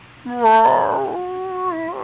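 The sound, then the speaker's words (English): A human voice imitates whale sounds with loud, drawn-out moaning calls that waver and slide in pitch, heard alone. “I think that's how whales sound, right?”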